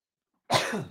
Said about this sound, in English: I'm trying not to cough in your all's ear, I promise. Allergy-induced asthma.